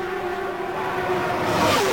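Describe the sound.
Race cars speed down a track's backstretch, a loud, steady engine whine that swells and climbs in pitch toward the end, with no voices.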